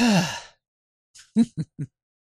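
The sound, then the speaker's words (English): Out-of-breath breathing from someone who has just gone down and up stairs. A drawn-out voiced sigh falls in pitch, then after a short silence come a few quick, heavy panting breaths. “I can't breathe because I just went down and up the stairs to say hello to Mark.”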